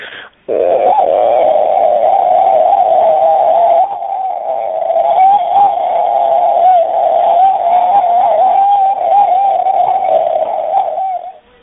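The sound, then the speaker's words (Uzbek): A flock of cranes calls as it flies off. The calls form a loud, continuous, wavering chorus of mid-pitched notes that holds steady for about eleven seconds after a brief opening. “Mana turnalar kelasi masalan mana ko'plashib o'chib ketayotgan paytda o'sha turnalarni chiqaradigan ovoz mana shunday bo'lar ekan.”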